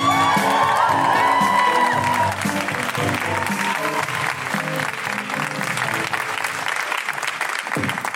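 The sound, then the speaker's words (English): Audience applause and cheering for a stand-up comic, dense steady clapping with whoops and shouts rising over it, loud and sustained throughout. “put your hands together and make incredible woohooing noises for the wonderful Jabby McGraw!”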